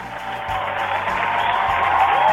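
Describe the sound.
Applause sound effect: a continuous crackle of many hands clapping that grows gradually louder over its short span, heard on its own.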